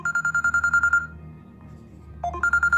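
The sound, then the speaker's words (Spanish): Telephone ringing with an incoming call: rapid, trilling electronic ring pulses come in two bursts separated by a short pause, clear and fairly loud. “estamos recibiendo otra llamada directamente que nos tumba esta.”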